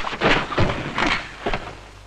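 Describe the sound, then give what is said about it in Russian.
Crates topple over in the back of a truck bed as the vehicle brakes, giving a few heavy, dull thuds and knocks in quick succession, fairly loud and with no talking. “Заставлено ящиками кузов автомобиля. В нем сидит Валя. При торможении ящики падают.”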